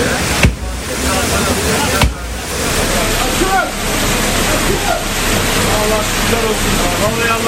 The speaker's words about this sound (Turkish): Evlerin bodrum katlarını da su bastı.